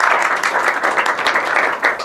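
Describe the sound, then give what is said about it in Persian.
Audience applause at the close of a cultural association gathering, dense and even with no breaks, an unbroken wash of many hands clapping. “حالا ما امروز به کوزه افتادیم. از همه شما من متشکرم. تشویق کنید خودتون.”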